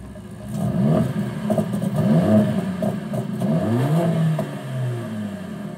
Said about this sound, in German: Ein Hochleistungsaggregat, das mit effizienter Kraftentwicklung und sportlichem Sound begeistert. Bei Mercedes AMG gibt es sogar Soundkostproben für die Ohren.